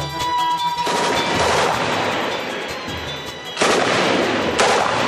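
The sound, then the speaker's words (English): Rifle fire and rocket-propelled grenades in open fighting across foothills on the outskirts of Dili, a loud, dense, continuous wash of gunfire broken by sudden heavier bursts toward the end, with no voices. “It was open warfare just 4 kilometres from central Dili. Rifle fire and rocket-propelled grenades ricocheted across the foothills near Bakora on Dili's outskirts.”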